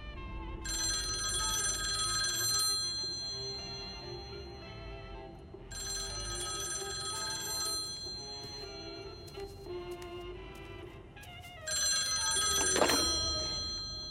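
A telephone rings in three long trilling bursts, each a couple of seconds long, separated by quiet pauses over a faint background hiss.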